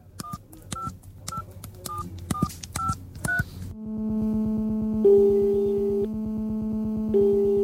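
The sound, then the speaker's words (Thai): Keypad tones as a phone number is dialed: a quick, even string of short electronic beeps, then a steady sustained line tone whose upper pitch shifts a couple of times. “นี่มานี่ข้าเจ้าจะโทรไปเอง”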